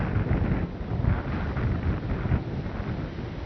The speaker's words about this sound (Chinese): 这背后这落下的树枝还蛮多的，而且风也蛮大。